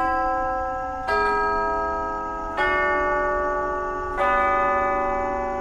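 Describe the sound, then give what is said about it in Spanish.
A clock strikes at midnight with three resonant chimes, evenly spaced about a second and a half apart. Each bright, bell-like stroke rings out and slowly decays before the next. “Empezó a sonar un reloj, estaban dando las 12 de la noche.”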